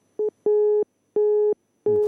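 Telephone busy signal after a dropped call on a phone-in line: four steady, mid-pitched beeps in an even on-off pattern, one short beep followed by three longer ones separated by silence.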